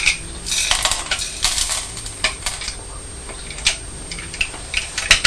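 Cornflakes rattle as they are tipped from a green cereal bowl onto the back of a toy train, making many light, brittle clinks and crackles in irregular bursts, with no voices over them.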